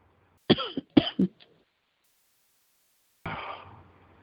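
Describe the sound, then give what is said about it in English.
Coughing from someone who is sick: a few sharp, rough coughs in two quick clusters, then a pause before one last, longer, breathier cough. No talking comes through. “Try not to cough in everybody's ears. Yeah, I'm trying not to cough in everybody's ears.”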